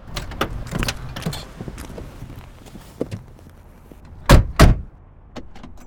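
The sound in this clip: Children getting into a car with the doors closing: scattered clicks, knocks and shuffling movement, then two loud, heavy door slams in quick succession near the end, followed by a lighter click.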